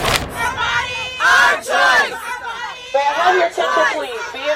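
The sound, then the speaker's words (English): Abortion rights protesters chant outside the Supreme Court, with loud rhythmic bursts of many voices shouting together, separated by brief pauses and mixed with crowd chatter. “That was the sound of the abortion rights protest that took place outside the Supreme Court yesterday”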